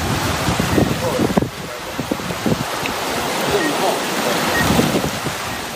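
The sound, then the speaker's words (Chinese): Strong wind and rough sea waves churning around an island ringed by underwater reefs: a steady, dense roar of wind and surf with irregular crashing bursts throughout. “南定岛周边水下暗礁无处不在，而且风大浪急。”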